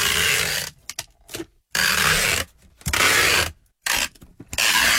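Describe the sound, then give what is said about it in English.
Packing tape is torn off in several loud, rasping rips, each lasting under a second, with short quiet gaps and faint crackles between them. “That sounds like sticky tape. Or yeah, tape. Packing tape. Yep. That's it. Me having my legs waxed with it.”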